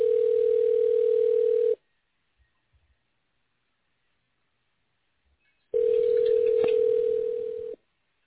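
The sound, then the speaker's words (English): A telephone ringback tone sounds while a call is being connected: two long, steady, loud tones separated by a long silence. “Otherwise, please hold while we connect your call.”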